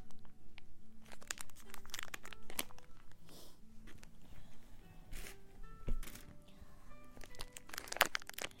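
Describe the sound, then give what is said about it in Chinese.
A snack package torn open, with many sharp plastic crinkles and rips in quick irregular bursts, faint overall and a louder crackle near the end. “娜娜，我要打开吃了哟。”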